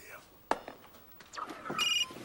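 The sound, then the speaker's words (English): A telephone rings with a short burst of bright, high electronic trilling near the end, after a few soft knocks and rustles. “His phone rings.”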